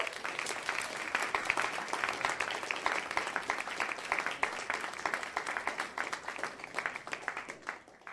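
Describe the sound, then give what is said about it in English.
An audience applauds to welcome a speaker to the stage, a dense, steady wash of many hands clapping that holds at an even level for the full stretch before easing slightly at the end. “Please put your hands together and welcome Charlotte to the stage.”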